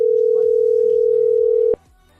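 Steady telephone line tone on a call to a busy number: a single unbroken pitch that holds evenly, then cuts off abruptly just before the end, leaving only faint low background noise.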